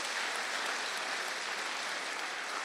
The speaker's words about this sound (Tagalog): Palakpakan po natin ang Panginoon.